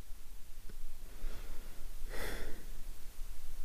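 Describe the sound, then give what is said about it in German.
A deep breath, heard as two soft, airy rushes of air with the second fuller and longer, quiet over a faint background hiss. “einen tiefen Atemzug nehmen und im Hier und Jetzt ankommen”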